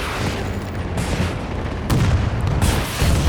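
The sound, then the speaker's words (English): Heavy gunfire in a military video game: a few booming shots punch through continuous rumbling battle noise, with the loudest blast near the end. “Hold on, I'm gonna take another shot at him.”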